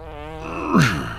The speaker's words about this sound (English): I say there's never been a better time to fart than I let him have just then.